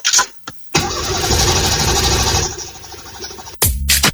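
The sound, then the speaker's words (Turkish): A car starter cranks in short bursts before the engine catches and runs loud and steady for a few seconds, then stops abruptly. “Marş basmıyor ya da akünüz mü bitti? Yolda mı kaldınız?”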